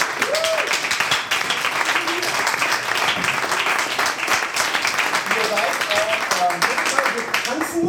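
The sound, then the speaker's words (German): Audience applause at an improv theatre show, dense and steady clapping that fills all eight seconds with a few voices mixed in. “Bitte mal einen Applaus für Gudrun.”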